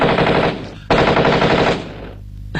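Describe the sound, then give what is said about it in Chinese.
Rapid machine-gun fire from Japanese aircraft strafing from the air. Two long, dense rattling bursts are separated by a short gap, followed by a fading tail and the abrupt start of another burst. “这日本鬼子的飞机啊，在天上是又是扫射又是扔炸弹”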